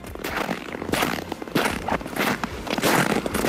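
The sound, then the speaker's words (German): Footsteps crunching through snow: a walking series of gritty, crackling crunches, each a burst of brittle rustle, repeating unevenly with no voices. “Na, spüren Sie schon den Schnee unter den Fußsohlen?”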